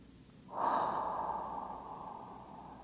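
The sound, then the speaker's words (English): One deep, slow breath drawn in begins with a soft rush after a short pause. It peaks quickly, then stays as a long, gently fading airy hiss to the end, faint and with no voice. “Breathe it in. Transform it.”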